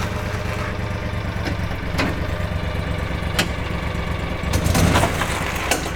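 A vehicle engine runs steadily after being put in gear, a continuous mid-pitched rumble that swells briefly louder near the end.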